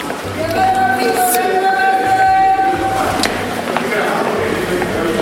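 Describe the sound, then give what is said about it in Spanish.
A metro train rides along line 5, giving a steady low rumble under a sustained high-pitched whine that drops away partway through. Faint voices murmur in the background. “Estamos en la línea 5 y vamos a ir a Metro Instituto de Petróleo.”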